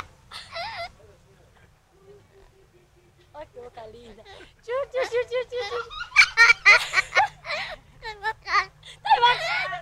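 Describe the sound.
A parrot calls beside a laughing girl in Bahia, Brazil. Sparse squawks and giggles come first, then a dense run of rapid, high, chattering calls and bursts of laughter.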